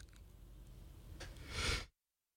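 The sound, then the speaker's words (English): A single sneeze, quiet breathy noise building up before one sharp burst that cuts off abruptly into silence. “excuse me, I had to sneeze.”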